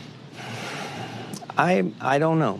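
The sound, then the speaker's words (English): A big, deep breath drawn in with a long, airy rush of breath noise lasting about a second, after which a voice begins speaking. “That was a big, deep breath.”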